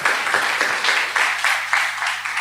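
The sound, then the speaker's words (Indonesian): An audience claps after a question at a lecture, a moderate wash of hands with a pulsing, fairly even rhythm of swells that holds for the whole stretch. “Dan yang mendengarkan mau memberikan tepuk tangan, itu tandanya sehat.”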